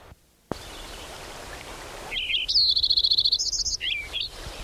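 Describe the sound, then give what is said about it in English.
Lincoln's sparrow song: a bright, high-pitched song that starts with buzzy chips, runs into a rapid, even series of repeated notes, then ends in warbled, gurgling phrases. It follows a short quiet stretch and a single sharp click. “Lincoln Sparrow number 10 continued.”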